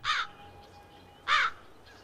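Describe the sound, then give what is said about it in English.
A crow standing on a nest caws twice, two harsh, raspy calls about a second apart over a quiet background. “A tangle of red tape in a nest. A crow stands on it.”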